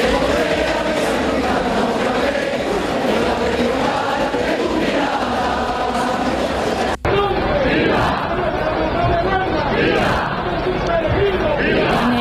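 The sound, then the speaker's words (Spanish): A dense crowd roars and chatters at the brotherhoods' presentation before the mother brotherhood during the El Rocío pilgrimage. The loud, continuous mass of voices and shouts is cut off only by one very brief break partway through. “Rocío, donde continúa hasta ahora la presentación de hermandades ante la matriz del monte con sonidos como estos.”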